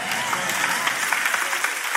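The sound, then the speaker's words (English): Applause from a church audience during a sermon: dense, steady clapping from many hands forms a continuous crackling wash at an even level throughout. “Oh, the applause died down by 73%. It always happens when you challenge the values.”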